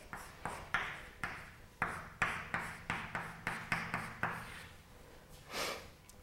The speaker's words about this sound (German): Jetzt schreibe ich den schon mal, die Bewegungsgleichung schon mal anders hin.